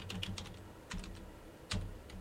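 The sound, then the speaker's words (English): Computer keyboard typing: a few quick bursts of crisp plastic clicks separated by short pauses, over a steady low hum. “Hear that? I'm clicking because I'm typing as I'm speaking, because I wanted to get a little bit more information.”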